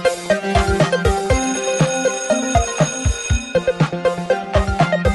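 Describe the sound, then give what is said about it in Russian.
An electronic school bell rings for the start of class, a loud, steady run of repeated melodic chiming tones with no voices. “Он едва управился, как прозвенел звонок на урок.”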